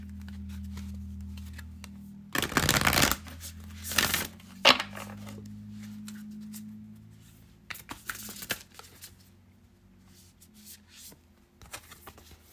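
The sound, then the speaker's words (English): Tarot cards being shuffled and drawn make a few short, papery riffling bursts separated by quiet gaps, over a low steady hum. “And now I'm moving on to Aquarius. Last but not least, Aquarius. Let's pull 5 cards for you.”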